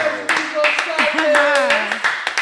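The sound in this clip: A studio audience applauds and cheers, with a burst of clapping mixed with whooping voices throughout.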